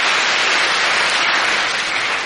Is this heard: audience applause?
yes